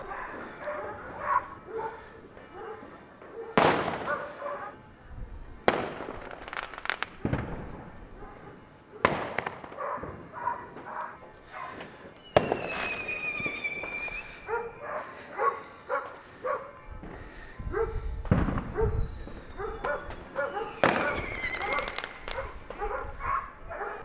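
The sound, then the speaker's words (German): Firecrackers and fireworks set off outdoors at New Year 2022: a long series of sharp, loud bangs at irregular intervals, with a few whistling tones that slide downward between the blasts. “Ich bin mal kurz rausgegangen. Böller wird ja nicht verkauft, aber ja, gekauft haben sie ja noch viel oder Restbestände.”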